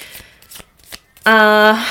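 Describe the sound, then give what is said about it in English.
Soft riffling of a Spirit Baby Oracle card deck, a few brief papery flicks, followed by a short hummed voice. “So, I was talking about the Spirit Baby Oracle cards. I've got them here with me, and I thought I'll draw a card.”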